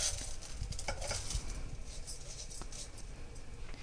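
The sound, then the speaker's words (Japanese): Uncooked rice goes into the inner pot of a rice cooker with a faint, soft pattering of grains against the pot and a few small clicks, quiet and continuous throughout. “それでは炊いていきます。炊飯器の内釜にお米を入れて、”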